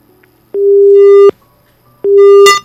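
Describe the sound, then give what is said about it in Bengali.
Busy tone on a disconnected phone line: two loud, steady tone bursts of equal length separated by a silent pause, the second ending in a brief crackle. “না, বন্ধুর সঙ্গে কথা বলা গেল না, ফোনটি hang up হয়ে গেল।”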